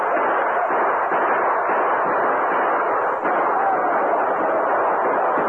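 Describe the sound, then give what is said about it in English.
Gunfire in a radio drama battle at the mouth of a cave forms a dense, unbroken roar with no separate shots standing out. It stays loud and steady throughout. “So shoot as fast as you can. Noise counts as much as bullets in Indian warfare.”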